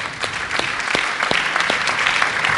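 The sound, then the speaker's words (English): Audience applause for a musician acknowledged from the crowd: brisk clapping with several sharp individual claps standing out, steady and moderately loud throughout. “Yes, get a hand for Harvey.”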